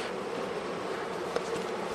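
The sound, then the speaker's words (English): Honey bees buzz on a wax honeycomb frame full of honey ready for extracting, a steady, dense, unbroken hum held at a fairly low level throughout. “This frame of honey is ready for extracting. Okay. Just remove some of the bees.”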